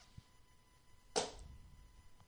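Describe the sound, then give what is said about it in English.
A hand hits a clipboard, one sharp, crisp slap landing midway through an otherwise quiet stretch and fading quickly. “That was the sound of me hitting my clipboard that's in front of me”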